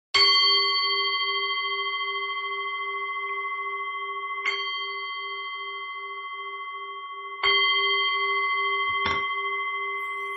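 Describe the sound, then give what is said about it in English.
A meditation bell is struck four times at a Buddhist practice session. Each strike gives a bright, sustained ringing tone that lingers and slowly fades, the last two strikes coming closer together. “So I'll just ring the bell right now.”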